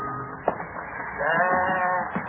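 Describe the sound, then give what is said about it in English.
A large flock of sheep blocking a road bleats, with a few wavering, nasal calls over low shuffling noise; one sharp knock comes early, before the drawn-out bleating. “Nearing Boston, a large flock of sheep driven by a red-faced man in shirt sleeves blocks the road.”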